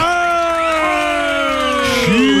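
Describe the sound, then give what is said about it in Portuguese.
Crowd cheering and whooping as two police chiefs are introduced at a live event, with sustained shouted voices rising over a steady, loud wash of crowd noise for the whole stretch. “Palmas para o delegado Nico e a delegada Lisandra Salvariego.”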